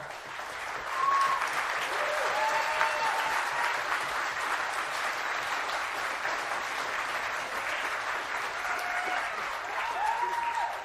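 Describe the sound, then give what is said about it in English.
An audience at a live ticketed show applauds with dense, steady clapping that holds an even level for the whole stretch and does not fade out. “thank you for the unexpected applause.”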